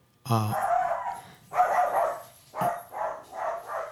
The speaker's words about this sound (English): That's my dog. He just can't stand anybody, any cats, dogs,